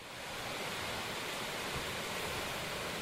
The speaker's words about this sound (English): Listening to the crashing waves on the ocean can be intoxicating, even before your first cocktail. This is the sound of summer at the Jersey Shore